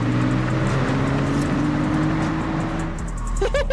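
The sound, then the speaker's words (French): A car's engine runs steadily with broad road and tire noise during a handbrake turn in a driving practice session. The roar stays loud and even for the whole stretch. “Un petit coup de volant et tu freines à main. Vas-y, vas-y, là, vas-y.”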